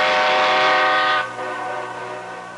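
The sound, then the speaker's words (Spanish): A departing train sounds its horn in one sustained, loud harmonic blast that drops to a softer, lingering tone after about a second. “Pasajeros al tren, ¡vámonos!”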